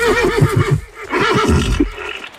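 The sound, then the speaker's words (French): A Camargue horse neighs in two loud whinnying calls, each made of quavering, pulsing bursts with a short gap between them and no other sound. “Je suppose que ce sont les chevaux. Les chevaux de Camargue”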